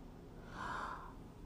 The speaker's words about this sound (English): Set your intentions, set them, feel good about them. Just take a deep breath.